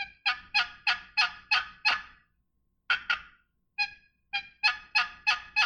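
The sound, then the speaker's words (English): Yelps from a turkey box call worked with proper turkey calling rhythm: a quick, even run of raspy, high yelps, a pause, two lone yelps, then another steady run of sharp, loud notes. “see the difference? Yeah. So turkey rhythm is everything in turkey calling.”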